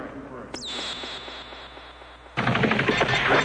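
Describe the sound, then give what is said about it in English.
Gunfire during an insurgent attack in Iraq: a single sharp crack opens, followed by a sustained high whine, then a dense burst of rapid shots that runs loud to the end. “And we see insurgents on the attack. Reaching around the corner, not looking, can't see where he's shooting at all. Shooting and bombing.”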